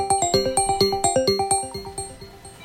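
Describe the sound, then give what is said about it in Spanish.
A telephone line rings as a rapid, even series of bright electronic chime tones, each decaying quickly, with the pattern repeating steadily and growing slightly fainter toward the end. “Está sonando la línea telefónica.”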